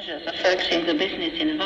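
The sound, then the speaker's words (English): Shortwave radio reception: a voice comes through in a distorted, wavering way, with hiss and crackle around it. “Do you recognize this sound? It's shortwave radio, and some of the biggest announcements of the 20th century were heard through the crackles and the hiss of these radio waves.”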